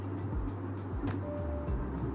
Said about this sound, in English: And so anyway, I'm driving, right? So my route is to Elwin.